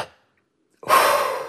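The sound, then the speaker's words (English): A deep breath from an average-sized adult for a spirometer lung-capacity test: after the faint tail of a breath and a near-silent pause, a loud, airy rushing exhalation starts abruptly and holds steady to the end. “when they take a deep breath to exhale into that spirometer to do the lung capacity test,”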